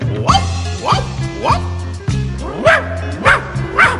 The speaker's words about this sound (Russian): а в этом громко лают собаки всех пород